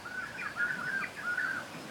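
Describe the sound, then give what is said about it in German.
Exotic birds singing on a beach, heard as faint, high, short chirps repeating in a steady succession over a soft background hiss. “das Singen exotischer Vögel”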